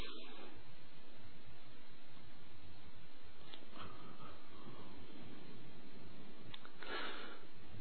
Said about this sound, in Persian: اوکی، حاضر؟ نفس عمیق.